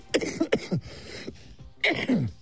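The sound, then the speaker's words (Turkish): A sudden coughing fit interrupts a speaker: a few short, harsh coughs and throat-clearing bursts in quick succession, a brief pause, then two more rough coughs. “Evet, su molası verdik, bir anda gelen bir öksürük.”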